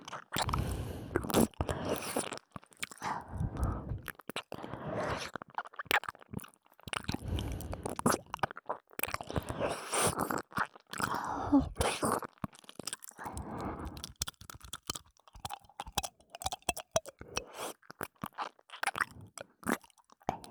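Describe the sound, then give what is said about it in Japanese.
Crunchy chewing and biting captured in a binaural recording, with wet tongue and mouth sounds between the bites. Many close, irregular crunches and squishes run steadily throughout and stand alone without any talk. “バイノーラルだから舌が動く音までしっかり聞こえる。”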